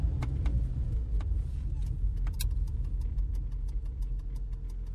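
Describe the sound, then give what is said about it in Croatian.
A car drives with a steady low engine hum, overlaid by a few light clicks and ticks. “Stani, okreni auto. Molim te, stani, okreni auto.”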